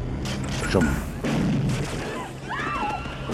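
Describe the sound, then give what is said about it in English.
Shotgun blasts from a film scene: a few sharp booms over a steady low rumble, followed by short bird-like chirps rising and falling. “Even the birds are scared of the gunshots.”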